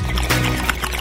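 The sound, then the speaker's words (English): Water bubbling in a bong with no silencer fitted: a continuous, fairly loud gurgle with rough, noisy bubbling that runs unbroken for about a second. “First, without bong silencer, you get this.”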